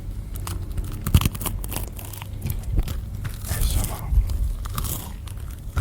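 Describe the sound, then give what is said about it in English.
Bites into crunchy shop-bought garlic bread give a run of crisp, crackling crunches and tearing sounds, irregular and close, mixed with chewing and soft breathing and no clear speech. “It's nice as well, garlic bread though. It's got a good crunch in it.”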